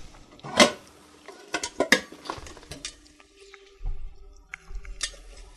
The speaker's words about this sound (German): ich nehme mir jetzt noch mal einen Topf dazu.